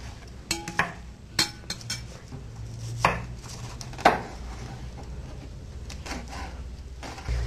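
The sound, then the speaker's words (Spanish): Bell peppers are chopped with a knife, giving irregular sharp taps against a cutting surface. A few louder strikes stand out over faint background noise, and no voices are heard. “voy a picar los pimentones.”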